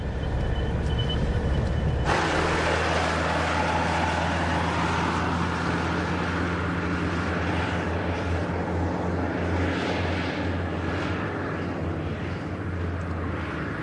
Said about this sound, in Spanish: El coche se aleja por la carretera.